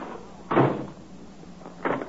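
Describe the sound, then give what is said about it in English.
A door with a push-button lock shuts as someone steps outside to test the lock. Two dull thuds stand apart over a low background hum. “Just let me check this lock now, and then I'll set up the card table. I just push this little button in to lock it. Like that. See? Now I'll go outside and try”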